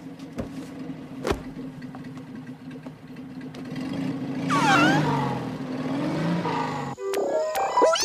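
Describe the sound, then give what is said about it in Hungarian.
A borrowed car's engine hums steadily with a low, even drone, holding through the whole stretch with a brief dip near the end before it resumes. “Szálljatok be. Kölcsönöztem egy autót.”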